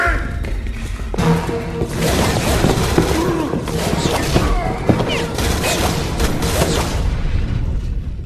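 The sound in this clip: P90 submachine gun fire in a video game: rapid sharp shots and heavy booms over a loud, continuous, cluttered mix of game sounds.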